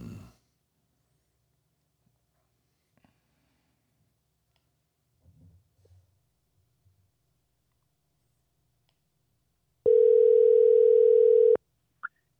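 A telephone tone sounds while a call is being placed: one steady, loud electronic tone lasting under two seconds, then a short click. Before it comes a long quiet stretch with only a few faint rustles.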